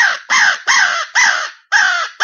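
Crow caws imitated on a crow call for turkey hunting: six loud, harsh, raspy caws in a quick, steady rhythm, each a short burst with brief pauses between, like an agitated crow fight.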